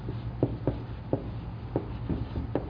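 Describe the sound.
A pen scratches across paper during a talk at a worship service, making several short, soft strokes at uneven intervals over a constant low background hum.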